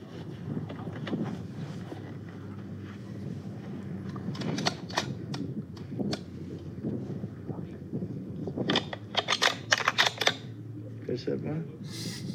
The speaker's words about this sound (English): Just built this gun. Brand new. Nice. Literally first few rounds out of the pipe.